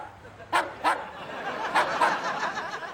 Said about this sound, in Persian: این صدای سگه؟ بله. توی آزمایشگاه؟ آره دیگه.